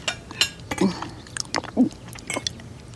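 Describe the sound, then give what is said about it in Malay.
Someone chews tough, stringy cooked food from a soup, producing uneven wet squelches and crisp little clicks of biting. The chewing is fairly faint and comes in an irregular rhythm, and no clear talk is heard. “Eh, mana ada keras macam tali pancing. Oh, Okey je saya makan, Encik. Tak keras pun.”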